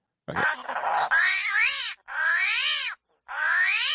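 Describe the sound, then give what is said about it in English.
A New York City alley cat yowling: three loud, drawn-out meows with wavering, rising-and-falling pitch. The first opens with a rough, growly burst and the last is cut off. “That is a New York City alley cat.”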